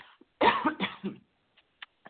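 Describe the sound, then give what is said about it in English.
A person clears their throat in one short, rasping burst of several quick pulses, followed by a few faint, soft clicks. “Sorry, I'm just going to clear my throat.”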